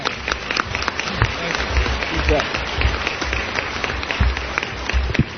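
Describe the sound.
An audience applauds to welcome the director of the American Printing House for the Blind at an Education Day event. Steady, brisk clapping from many hands continues throughout.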